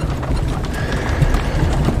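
Clip-clop of hooves from a horse-drawn carriage, a continuous stream of hoofbeats mixed into a dense, rumbling wash of noise.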